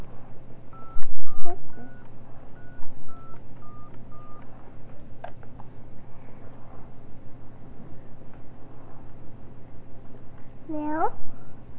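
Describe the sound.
A touch-tone telephone dials a number to reach a time service, with a quick series of short beeps at shifting pitches. Soft talk and low background hum follow.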